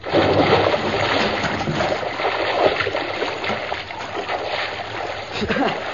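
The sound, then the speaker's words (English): Water splashing as a swimmer dives into a lagoon: a steady, loud wash of churning, sloshing water that runs the whole length without a pause. “One more dive. All right, one more dive.”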